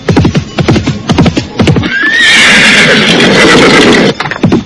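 Hooves of a ridden horse clip-clop in a quick, steady rhythm. Midway the horse lets out a long, loud, shrill whinny, and the hoofbeats resume at the end.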